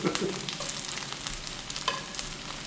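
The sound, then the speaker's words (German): Food frying briefly in oil in a pan gives a steady, dense sizzle with scattered crackles and pops throughout. No voices are heard. “Kurz in wenig Öl anbraten. Wir haben viel Öl, also passt, oder?”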